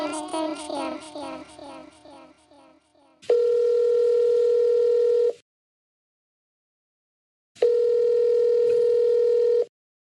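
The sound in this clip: Two long, steady telephone line tones of a call ringing through. Each lasts about two seconds, and full silence separates them.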